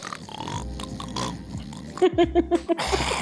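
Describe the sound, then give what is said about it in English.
A person imitates heavy snoring, rumbling like a diesel engine, with a quick burst of about six harsh, rattling snorts after a stretch of people talking. “Oh yeah, he snores like a diesel engine.”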